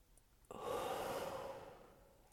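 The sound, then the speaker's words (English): A slow, soft breath out during a guided relaxation exercise. The airy rush starts abruptly and stays quiet, fading gently over nearly two seconds with no other sound. “Breathe in. Hold it. Breathe out.”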